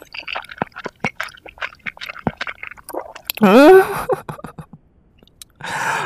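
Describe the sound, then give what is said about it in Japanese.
Someone eats instant ramen noodles with many quick, wet chewing and slurping clicks, a short vocal sound in the middle, then a longer, louder slurp near the end. “こんなインスタントラーメンが一番美味しいよ。いただきましたよ。”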